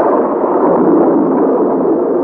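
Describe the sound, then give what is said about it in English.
A storm bursts inside a vast cavern with heavy rain and raging wind, heard as a loud, continuous, dense roar that stays even throughout, with no distinct separate peaks. “The professor has scarcely spoken when the storm bursts. The rain falls like solid rods of steel.”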